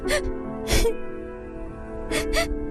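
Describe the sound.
A person crying, with a few short breathy sobs and whimpers separated by quiet pauses, each burst sharp and shaky.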